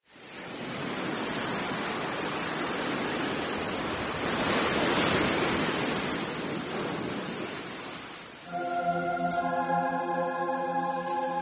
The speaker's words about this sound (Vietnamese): Tất cả đều im lặng, chỉ có tiếng sóng biển ọp ọp dỗ về bờ cát vào ù gió.